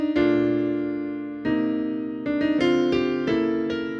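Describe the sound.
Solo piano played only in the middle and upper range, with no low bass notes. A long held chord is followed by a series of quicker, evenly struck chords, bright and thin in tone.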